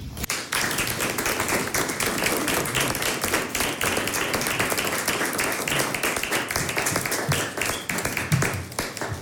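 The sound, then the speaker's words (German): A concert audience applauds in a dense, steady burst of many hands clapping, loud and sustained for several seconds without a break. “Applaus.”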